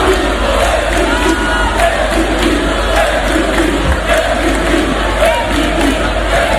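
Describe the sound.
Dense, loud crowd of football fans cheering and chanting through the night at a fan zone in Coruña, celebrating the team's late arrival with a continuous roar of many voices that never lets up.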